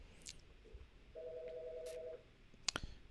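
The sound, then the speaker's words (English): A phone ringing: one steady electronic ring tone holds for about a second at moderate loudness, followed near the end by a brief sharp click over faint background noise. “I don't know if the microphones are picking it up or not, but that's my phone ringing.”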